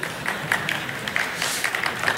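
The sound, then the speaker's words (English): Dayspring students clap together in steady, even applause, a moderate patter of many hands that continues without a break. “That was all the Dayspring students clapping, by the way.”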